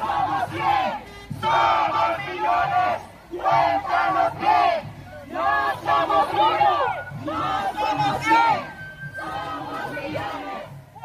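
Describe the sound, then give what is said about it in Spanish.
Crowd at a protest march through the streets of Washington, with families and many young children, chants in loud rhythmic bursts of many voices, separated by short pauses. “Desde las calles de la ciudad capital, la ciudad de Washington, se reporta también una marcha con la presencia de familias, muchos niños pequeños. Oigamos los sonidos de esa marcha.”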